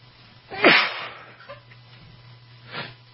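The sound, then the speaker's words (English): A person sneezes while turned away from the microphone: one loud, muffled burst followed by a fainter puff of breath a couple of seconds later, over a low steady hum. “I apologize, I was sneezing and I didn't want to sneeze into the microphone.”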